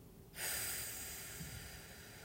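A deep exhaling breath during a breathing exercise: a steady, airy rush of breath that starts abruptly and holds evenly to the end, with no talking.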